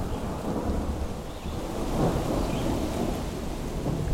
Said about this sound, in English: Loudest thunder, yeah. As you can hear it in the background now.